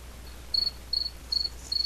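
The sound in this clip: A cricket chirps in four short, high, buzzy bursts at a steady rhythm, each about a third of a second apart, over a constant low hum with no voices.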